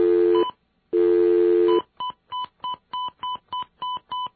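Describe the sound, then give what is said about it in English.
Touch-tone telephone dialing: two longer tones come first, then eight short, evenly spaced keypad beeps in a steady quick rhythm. The tones are clear and alone, with no voices. “Aren't those pleasant sounds, the sounds of our numbers being dialed?”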